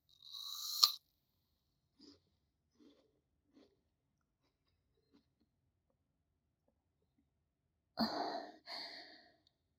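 Soft chewing and crunching of food during a meal, a few faint mouth sounds spaced apart between louder breathy bursts at the start and near the end.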